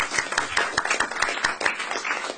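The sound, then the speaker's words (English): Applause from a committee at a meeting: many quick, brisk hand claps in an uneven patter that keeps a steady loudness for about two seconds. “No, but it deserves applause.”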